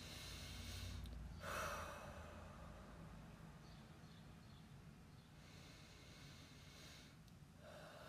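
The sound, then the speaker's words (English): A deep breath drawn in and let out, heard as a soft gasp-like inhale near the start and another near the end, both over a steady airy hiss. No one speaks. “All right, let's take a deep breath and focus.”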